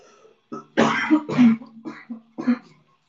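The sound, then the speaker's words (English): Throat clearing by a person: a short series of rough, voiced bursts, the middle ones loudest, tailing off into quieter grunts. No speech is heard. “Give me a second, I'm just gonna clear my throat and I'll be back.”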